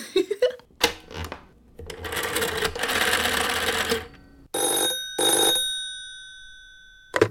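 Telephone ringing tone on an outgoing call: two loud bell-like tonal bursts, the second ringing out and slowly fading, after a stretch of clattering, rattling noise.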